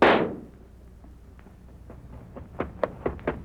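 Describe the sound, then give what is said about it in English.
A single sharp gunshot cracks out as a trigger is pulled on a gun and quickly dies away. A few faint knocks or clicks follow later. “Go ahead and pull that trigger.”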